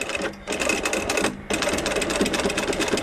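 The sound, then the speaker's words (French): Sewing machine stitching a strap with a quick-release buckle using thick thread: a rapid, loud mechanical rattle of stitches that breaks off in two short pauses before running on steadily. “Là, actuellement, je suis en train de coudre une sangle avec une accroche rapide.”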